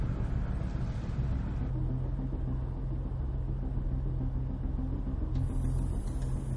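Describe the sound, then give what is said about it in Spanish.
Low, steady engine rumble as a black Porsche and a red BMW sports car roll out of a workshop at night. The deep hum holds evenly throughout with no sharp events. “En el taller, Ari abre la puerta corredera. Salen dos deportivos, un Porsche negro y un BMW rojo.”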